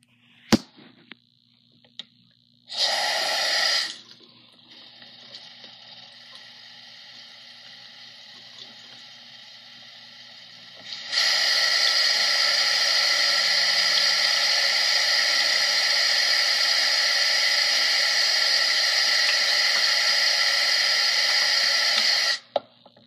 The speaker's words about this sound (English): If you don't like water tingles, then you might want to skip ahead